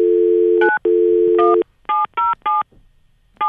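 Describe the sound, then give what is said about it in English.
A telephone dial tone plays steadily with one short break, then stops and gives way to three short, evenly spaced touch-tone key beeps from dialing, with no voices. “Do I dial 9 yeah, first? Try, okay, try let me try 9. Dial. Okay. I'll dial 9.”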